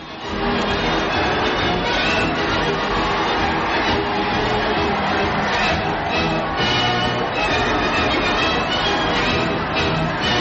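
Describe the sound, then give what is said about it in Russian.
A huge crowd of some 50,000 people in Whitehall, London, roars and cheers in greeting as Winston Churchill appears on a ministry balcony, a dense, unbroken wall of voices sustained loudly for about ten seconds. “In and about Whitehall, fully 50,000 people, like millions all over the country, gave themselves.”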